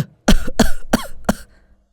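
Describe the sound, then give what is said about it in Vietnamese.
A pale, exhausted man coughs four times in a quick, harsh series. Each burst is short and loud, and the coughing is followed by quiet. “Đang nói, thầy lại ho tiếp, ngừng một lúc rồi tiếp tục.”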